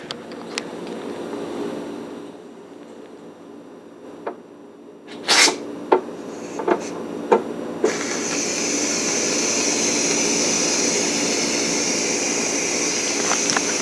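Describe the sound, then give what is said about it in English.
Steam hissing from a pressure cooker during a quick pressure release: a low hum with a few sharp clicks and taps, then a loud, steady, broad hiss that runs unbroken to the end. “So now I'm going to get that oven mitt, and we're going to use the quick release method to release the pressure. And this is noisy.”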